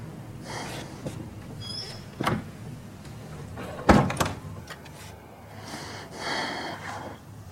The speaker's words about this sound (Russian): Он вздохнул и закрыл дверь.